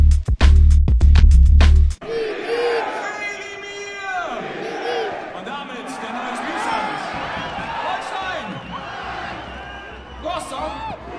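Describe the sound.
Football crowd roaring after an equalizing goal in a Holstein Kiel match, opening with a loud distorted burst before settling into sustained cheering and sung chants.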